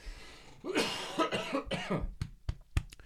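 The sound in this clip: Coughing from a tickle in the throat: a cluster of raspy coughs, followed by a few sharp, short clicks, moderately loud and alone.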